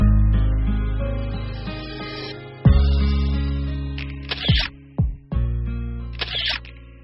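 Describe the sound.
Camera shutter clicks as a father photographs his daughter outdoors against scenery in China: two short mechanical snaps over sustained background music.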